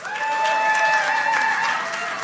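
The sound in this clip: An audience at a live concert at Eastside Bowl in Madison, Tennessee, applauds and cheers. The clapping is dense and steady, with a sustained whistle-like tone riding over it throughout.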